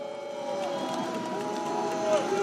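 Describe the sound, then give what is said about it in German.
A crowd of protesters in Heidenau boos Chancellor Angela Merkel during her visit, a steady mass of jeering voices with drawn-out, wavering vocal tones that hold at an even level throughout. “Aber die Kanzlerin lächelt die Buhrufe weg und winkt.”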